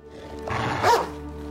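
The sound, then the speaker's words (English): A single harsh, gravelly bark from a mother dog on a leash in a forest, loud and rough-edged, swelling to a peak near its end before fading. “She barks at him and pushes him away.”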